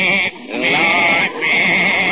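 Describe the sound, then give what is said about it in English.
A goat bleats in a courtroom, giving a few loud, nasal, wavering bleats with brief breaks between them. No talk is heard over them. “I got my goat here”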